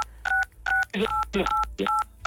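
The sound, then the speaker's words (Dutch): Telephone keypad tones sound on a phone line as someone presses the buttons: five short, bright two-tone beeps spaced at an even, steady rhythm. “Ik hoor steeds iemand die op toetsen drukt, zeg maar.”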